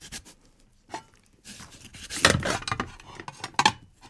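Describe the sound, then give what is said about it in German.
Knife sawing through a pumpkin to cut off its lid, with irregular scraping, crunching strokes that start quiet and grow louder midway, ending in a couple of sharper bursts. “So, und jetzt muss erstmal der Deckel ab. So, oh, das ist aber schwer. Deckel ab.”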